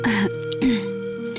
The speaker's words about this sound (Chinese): 掩饰地笑了笑，清了清嗓子。